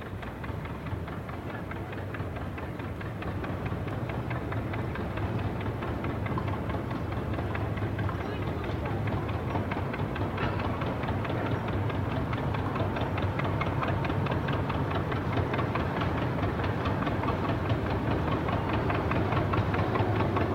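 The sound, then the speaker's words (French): Steady engine drone of boats on the Sumida river, a continuous low rumble with fast, even ticking or chugging running unchanged from start to end, with no voices. “Écoutez plutôt les bateaux sur la Sumida.”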